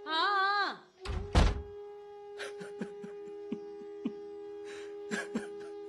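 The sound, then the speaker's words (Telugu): A door is shut with two heavy, dull thuds close together, then a few faint clicks, over a steady low tonal background; a brief vocal sound comes just before. “తలుపు పెట్టుకో.”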